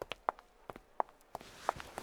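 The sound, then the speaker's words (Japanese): Faint footsteps of people walking together, a series of soft, quiet taps in a loose, irregular rhythm. “ふん。共に歩いているだけだというのに、そういうのか。”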